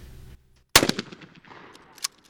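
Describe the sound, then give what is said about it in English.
A shotgun fires at a clay target during trap shooting: one sudden, loud blast breaks a near-silent pause, then fades through a brief rumbling decay. “Sandy Pike is giving advice as a new member prepares to aim his shotgun and attempts to shoot a clay target out of the air”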